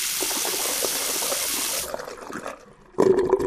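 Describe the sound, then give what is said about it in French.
Water drains and swirls down a washbasin, first a loud rushing flow, then a quieter trickle, before a gurgling, slurping swirl breaks in near the end. “Alors dans quel sens l'eau tourne-t-elle dans le lavabo? Là ce matin vous êtes devant le lavabo, ça tourne dans un sens, pourquoi? Et ça fait ce bruit surtout.”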